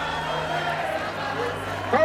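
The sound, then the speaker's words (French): A dense, noisy crowd at Cape Town city hall greets Nelson Mandela as he appears on the balcony to speak, producing a continuous, even roar of many voices throughout. “Il apparaît au balcon pour prononcer un discours. La foule est dense et bruyante.”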